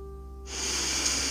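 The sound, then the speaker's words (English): A slow, deep breath drawn in: a soft airy rush that swells and then holds steady, preceded by a faint low hum. “We're going to begin with 5 slow, deep breaths, keeping your eyes open and your gaze soft.”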